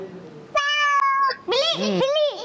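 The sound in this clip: A cat meows, played as a sound clue in a team animal-sound guessing quiz. A steady, even-pitched cry is followed by a longer meow that bends up and down in pitch, loud and clear with no talk over it.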